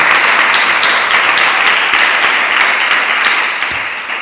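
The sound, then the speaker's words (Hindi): Loud, continuous applause from an audience at a church service, a dense, even wash of many hands clapping together that holds steady throughout and eases slightly toward the end. “खुदावंद यीशु मसीह के लिए जरा जोरदार तालियां हो जाए।”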